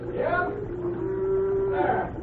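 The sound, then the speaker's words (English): Cattle being driven down to a bridge; one animal lets out a long, drawn-out moo that holds a steady low tone before ending. “Cy Brannan is rustling his own cattle. Or rather, the cattle of the company for which he works. He drives them down here to the bridge,”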